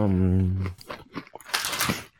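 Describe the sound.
Crunchy bites into mini Nutter Butter peanut butter sandwich cookies follow a brief voiced sound, with several crisp, irregular crunches of moderate loudness.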